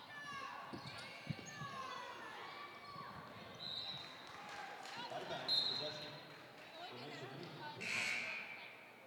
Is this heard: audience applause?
no

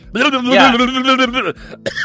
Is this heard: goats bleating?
no

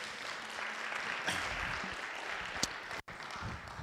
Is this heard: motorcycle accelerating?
no

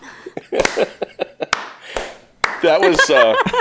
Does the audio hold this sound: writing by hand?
no

